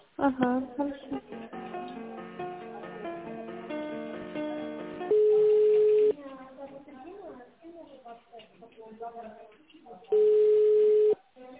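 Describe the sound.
Telephone line tones while a call is transferred to a secretary: after a stretch of talking, two long, steady, evenly pitched tones sound with a gap between them, with sounds of the line continuing in between.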